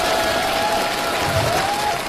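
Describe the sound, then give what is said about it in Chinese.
Applause and cheering from a crowd seeing off a visiting leader at night, with dense, loud clapping throughout and voices cheering and singing above it. “掌声、歌声、欢呼声响彻夜空。”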